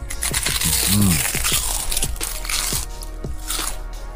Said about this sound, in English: Was that a good idea to eat my crisps in the middle of the advert?